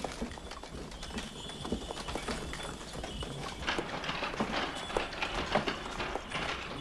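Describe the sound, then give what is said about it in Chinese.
Horse hooves clip-clop as a horse-drawn carriage is taken away: many quick, steady hoofbeats over a continuous rumbling noise, moderately loud with no clear voices. “哎，我的马车，你们不能带走我的马车呀！把马车还给我。”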